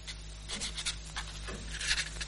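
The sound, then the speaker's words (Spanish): Pen scratching across notebook paper as a name is written: a few short, quiet, dry strokes with brief pauses between them over a faint low hum. “Abre una libreta y anota el nombre de Fulgencio Aranda.”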